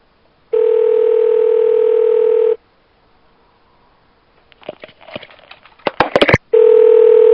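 A telephone dial tone sounds after the phone is hung up: a loud, steady buzzing hum runs for about two seconds, then stops. Quiet handling clicks and rustles follow before the same steady tone returns.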